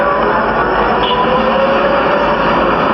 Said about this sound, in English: There's a train approaching on the downtown track.